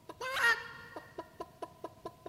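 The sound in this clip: Chickens cluck in a poultry yard, faint and alone: a brief busier burst of calls opens, then a run of short, evenly spaced clucks repeats steadily to the end.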